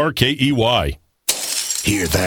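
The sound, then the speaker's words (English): Glass shatters loudly as thieves trash and ransack a house. A sharp crash bursts in after a brief pause in speech, then a bright, scattering, crunching tail follows, with talk around it. “That's the sound of a house being trashed while a gang of thieves ransack the place.”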